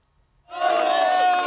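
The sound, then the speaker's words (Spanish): Palace staff at Zarzuela cheer the arriving World Cup champions; after a brief near-silence a loud burst of many voices breaks out and holds steady. “Así llegaba la Copa del Mundo a Zarzuela, entre vítores y aplausos de todo el personal de Palacio.”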